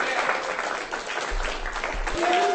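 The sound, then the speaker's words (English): Audience applause at a reading, greeting a performer leaving the stage: a steady, dense wash of many hands clapping that holds at a fairly even loudness throughout, swelling slightly toward the end. “Give her a hand.”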